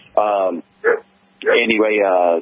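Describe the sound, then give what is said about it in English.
A dog barking in three vocal bursts, short, then a brief yelp, then a long drawn-out call, each loud against an otherwise quiet background. “sorry about the dog, there ain't nothing I can do about him.”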